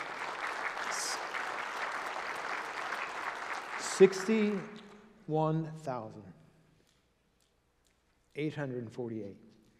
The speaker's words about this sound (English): You can clap for that.